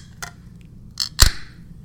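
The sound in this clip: A large can of Neon, a 6.5% ABV beer brewed at a bar, being opened: two light clicks, then a louder sharp crack with a short fizzing tail.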